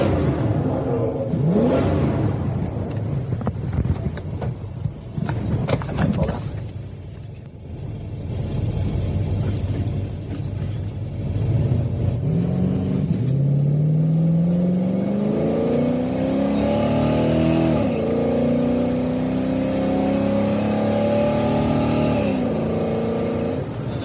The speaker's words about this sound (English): She's going to be racing me as well. Getting the tires warm.